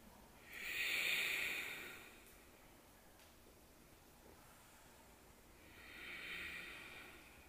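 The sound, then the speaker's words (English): Slow, deep breathing during a yoga flow class: two long, soft, airy breaths, one near the start and another toward the end, with a quiet pause between them. “Three breaths.”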